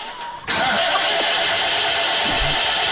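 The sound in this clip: A car engine cranks and struggles to start, with a carburetor that is not running well. Low noise gives way after half a second to a sudden loud mechanical roar, which holds steady until the end.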